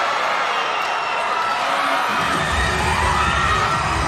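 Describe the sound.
A large stadium crowd cheers and chants in support of the Chinese team at a medal event, a dense, continuous roar that stays loud and steady throughout.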